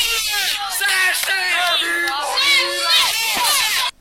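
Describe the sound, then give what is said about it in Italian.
Children cheer and shout in a crowd as a Porsche Cayenne arrives in the village. Loud, high-pitched yells run without a break for about four seconds, then stop abruptly. “Miguel Cerce arriva col Cayenne in paese, vediamo un attimo, eccolo qua, i bambini lo acclamano.”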